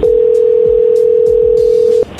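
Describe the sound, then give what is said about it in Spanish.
Steady telephone dial tone hums at a single low pitch while a number is dialed again, holding loud and unbroken for about two seconds before cutting off, followed by a brief higher tone. “ya salió, colgó. A ver, ahí se está marcando de nuevo.”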